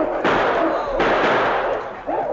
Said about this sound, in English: Come on, pour lead into them. Keep firing. Drive them back.